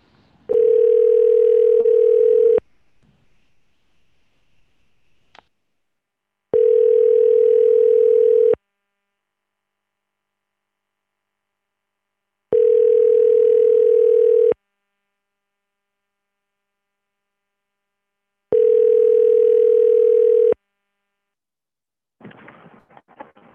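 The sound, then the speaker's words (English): Ringback tone of an outgoing telephone call being dialed: four steady, evenly spaced tones, each about two seconds long, separated by long silent gaps. Loud and alone, with a faint rustle near the end. “Now we're dialing.”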